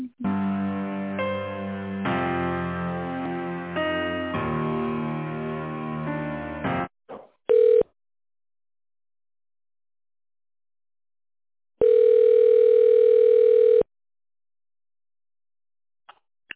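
Telephone line audio from a call being transferred: a stretch of hold music is followed by a steady single-pitched ringback tone, heard as a short burst and then a longer tone of about two seconds, with silence between them.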